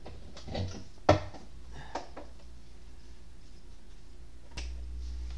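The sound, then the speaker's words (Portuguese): A laptop charger plugged into a wall socket gives a few sharp plastic clicks and knocks spread over several seconds, followed by a low, steady hum that runs to the end. “só vou dar uma pausa aqui, dois segundos, pessoal, que eu tenho que ligar aqui o, o carregador do notebook aqui, senão eu não consigo terminar de gravar.”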